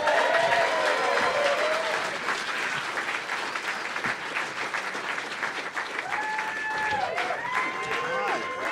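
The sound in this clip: Audience applause welcoming a band for an intimate chat: dense, sustained clapping with scattered whoops and cheers from the crowd, steady and loud throughout.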